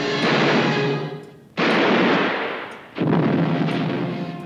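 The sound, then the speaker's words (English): Gunfire in a film scene: three heavy, loud blasts, each followed by a roar that fades over about a second and a half before the next shot. “Oh gosh, I hate this part. This is when William Holden gets shot.”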